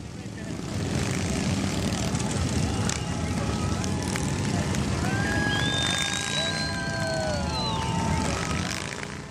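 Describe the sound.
Many motorcycles rumble through a city streets rally in a dense, continuous engine drone, with several whining tones sliding up and down over the loud, steady roar.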